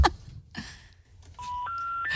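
Telephone tones ring out from a phone line: a short run of steady, clear electronic beeps that step upward in pitch one after another, loud and sustained, following a quieter, mixed stretch of sound.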